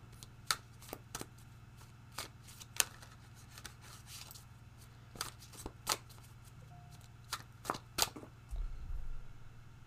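Tarot cards being shuffled and drawn, making many crisp, quick snaps and flicks in an irregular rhythm, faint and alone over a low steady hum.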